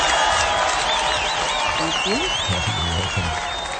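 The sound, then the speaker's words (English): Applause at a social bowls club presentation: many hands clap in a steady, dense wash, with voices and a few high whoops rising over it. “All right, round of applause for you.”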